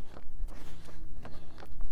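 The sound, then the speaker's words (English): Footsteps of someone running uphill beat in a quick, steady rhythm of soft, thudding impacts, many in a row. “Yeah, running and talking uphill is a tad tricky.”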